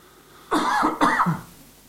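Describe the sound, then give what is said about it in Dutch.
Throat clearing from someone with something caught in the throat: two harsh, raspy bursts about half a second apart, heard on their own without talk. “je hebt wel eens dat er zo'n dingetje in je keel zit, hè? Daar heb ik nu even last van.”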